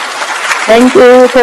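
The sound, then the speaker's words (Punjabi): A brief patch of applause greets a quiz winner, then gives way to a voice that starts talking over it. “ਲਓ ਜੀ, ਤੁਹਾਡੇ ਲਈ ਵੱਜਣਗੀਆਂ ਜੀ ਤਾੜੀਆਂ ਦੁਬਾਰਾ।”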